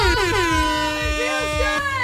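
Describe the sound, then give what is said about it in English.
An air horn sounds one loud, sustained blast. It holds a steady, bright, brassy tone for the whole clip with no break. “Like an air horn on a Thursday. I know. Our bosses love the air horn.”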